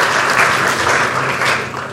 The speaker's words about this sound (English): Just one more time, just like some snaps or claps for the kids.